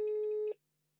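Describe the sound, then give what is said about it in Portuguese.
An outgoing telephone call tone: a single steady beep lasting about half a second, then silence. “Vamos ligar à Inês.”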